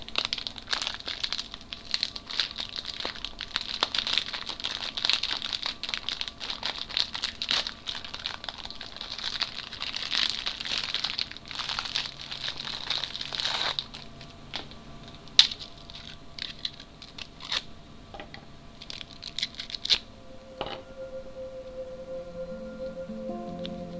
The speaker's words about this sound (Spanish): En este programa, dos galletas de la suerte.